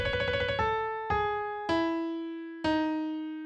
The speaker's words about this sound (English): the closest notes I can play on a piano sound like this.